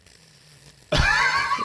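A Clydesdale horse whinnies in one sudden loud burst after a near-silent moment, a harsh, wavering cry that carries through to the end.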